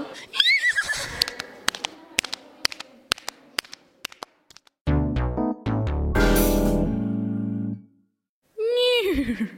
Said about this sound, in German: dass am Parlament mehrere Kutschen sind mit 4 Pferden drauf? Also wir werden uns eine der Kutschen nehmen, die am Parlament drauf sind, wer das schon einmal bemerkt hat, und damit durchs Parlament reiten. Hüa!